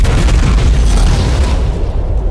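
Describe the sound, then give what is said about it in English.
A massive explosion of detonated charges with a rush of flame: a deep, very loud roaring rumble that holds steady, its upper hiss thinning slightly near the end. “He fires at the bundle, detonating the charges. As John ducks out of the way, a massive rush of flames and money fills our view.”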